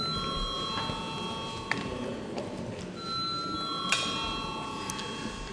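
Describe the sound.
A bell rings in a parliament chamber to call members to a vote: a sustained, fairly quiet ringing wash with faint steady tones and a couple of sharp clicks, no voices over it.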